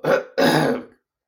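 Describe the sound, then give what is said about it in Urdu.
Throat clearing and coughing by one person: a short rasping burst, then a longer, rougher one, followed by silence. “اور مجھے کچھ کھانسی ہے، اس لیے مجھے بار بار۔”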